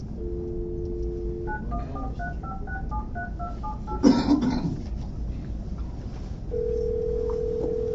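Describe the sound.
Touch-tone telephone dialing during a wildlife board meeting: a steady dial tone, then a quick run of stepped beeps, a brief rustle, and a steady tone returning at the end over constant background hiss.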